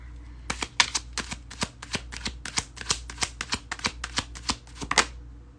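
Tarot cards being shuffled before a card is drawn: a long run of many crisp, papery riffling snaps in a steady rhythm, fairly loud and alone, ending in one last sharp flutter.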